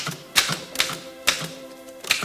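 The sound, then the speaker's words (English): Typewriter keys clatter in four sharp bursts at fairly even intervals, with a quieter mechanical rattle between strikes as the keys jam. “The typewriter keys jam.”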